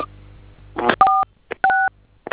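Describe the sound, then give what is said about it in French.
Telephone keypad dialing tones as a number is entered on a phone: a few steady two-pitched beeps, two held noticeably longer, separated by short silent gaps, with brief blips around them. “S'il vous plaît, veuillez appliquer ça sur un autre téléphone. Composez ça sur un autre téléphone.”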